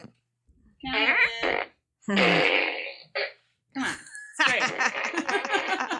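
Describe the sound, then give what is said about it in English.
Toy fart gun firing off rude, buzzing fart noises in several bursts, the longest a loud, rattling blast near the end, mixed with bursts of voices. “She's got a fart gun.”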